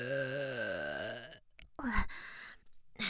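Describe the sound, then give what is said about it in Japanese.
A loud, vulgar burp after a drink has been gulped down: a long, low, wavering belch of just over a second, then a few rough, noisy bursts. “うわ、めっちゃくちゃ下品なゲップ出ちゃったな。”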